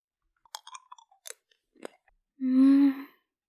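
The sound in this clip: Sweet hard candy is crunched and chewed: a few small, crisp crunches and clicks come in a loose, irregular rhythm, then a louder sustained sound follows, with no speech.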